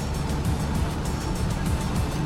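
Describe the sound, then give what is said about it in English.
A truck engine revs hard as the driver throws it into gear and drives off in pursuit, a loud, rough rumble that holds steady throughout with no voices. “Mike throws the truck into gear and gives chase.”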